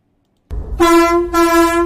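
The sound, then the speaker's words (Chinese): A freight train's horn sounds as the train slowly pulls into a rail yard. A short burst of low rumble comes first, then one loud, steady blast that holds a single pitch to the end, briefly thinning in its upper tones midway. “上午8:40，列车缓缓驶入平谷铁路场站。”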